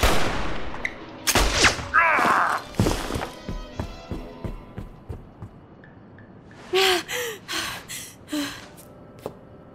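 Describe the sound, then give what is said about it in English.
Gunshots ring out in a few sharp, loud cracks with ringing tails, mixed with gasps and strained breathy vocal sounds, then later a cluster of short thuds and grunts over a low, hissing background. “Shot didn't kill him. He must have fled.”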